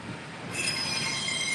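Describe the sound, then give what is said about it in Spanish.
A train passes in Miami with a steady, heavy rumble, joined after a moment by a loud, sustained, high-pitched squeal of wheels on the rails. “Estamos aquí. Está pasando el tren en este momento.”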